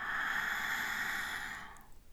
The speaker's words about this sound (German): Und das Geräusch, das dabei entsteht, klingt so. Einatmen mit geöffnetem Mund.